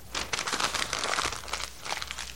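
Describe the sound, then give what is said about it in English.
A sheet of paper is crumpled and torn apart by hand, giving crisp, dense crinkling and tearing bursts that run steadily, pause briefly, then return for a final flurry. “it's not the same way as it was. I just destroyed that piece of paper.”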